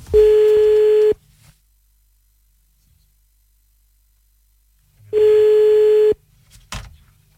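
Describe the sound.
Telephone line tones at the start of a prank call: two loud, steady buzzing tones of about a second each, separated by several seconds of silence, followed by faint clicks and rustle.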